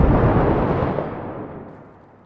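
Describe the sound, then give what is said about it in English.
A grenade detonates in the video game Six Days in Fallujah, a single heavy booming blast whose deep rumble fades away steadily over about two seconds, with no voices over it. “Grenade.”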